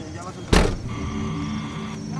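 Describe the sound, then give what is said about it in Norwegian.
A white armoured Toyota SUV with bulletproof glass, heard from the passenger seat while driving through the desert on an Iraqi airbase: a steady low engine and road rumble, broken early on by one sharp, loud thump. “Jeg er passasjer i en hvit Toyota SUV som er utstyrt med skuddsikkert glass og pansret dører.”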